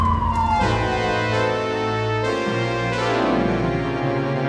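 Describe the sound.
A sheriff's car siren wails loud and unbroken, its harmonic tone sweeping up and down over a steady low rumble.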